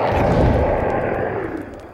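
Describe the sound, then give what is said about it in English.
Grenades explode with a loud, heavy blast whose rumbling roar fills most of the moment and slowly fades. A second sharp burst breaks in right at the end. “how good are you at lobbing grenades? Pretty good. Here goes. One, two, three!”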